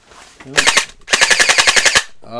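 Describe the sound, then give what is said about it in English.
A Jelly Blaster gel blaster toy gun fires in rapid automatic bursts: a short run of shots, a brief pause, then a longer, evenly paced string of snapping pops, with a voice starting at the end. “Wait, Jelly Blaster right here.”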